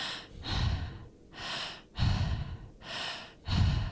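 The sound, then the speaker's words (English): Fast, deep breathing during a transformational breathing practice: about five loud, airy breath strokes alternate in and out in a quick, even rhythm, with no talking. “The purpose of that kind of breathing faster, like it'll sound like,”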